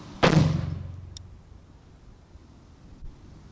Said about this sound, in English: Bulb bomb down the drain, here at home. In the drain out the front. CO2 bulb bomb.